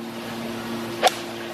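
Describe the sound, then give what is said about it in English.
A golf club snapping as a golfer breaks it across his knee on the course: one sharp, brief crack standing out over a faint, steady background hum. “Grayson Murray not only threw a putter, he also snapped one of his clubs like it was a baseball bat across his knee. Here's how that sounded.”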